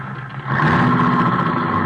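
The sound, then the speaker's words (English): A car engine runs with a steady mid-pitched hum. It swells after a brief quieter moment, then holds at an even, continuous level with no talk over it. “Now, you stop this car right now”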